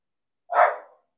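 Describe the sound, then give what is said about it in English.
A dog barks once, a single short, sharp bark that rises quickly and tails off, alone against silence. “That's my dog barking.”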